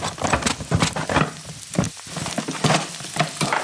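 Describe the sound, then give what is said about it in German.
Onions sizzle and crackle as they fry in a pan, a steady bright hiss broken by irregular louder spitting bursts throughout, with no voices. “Zwiebeln umrühren. Ja, ein bisschen brauchen die noch.”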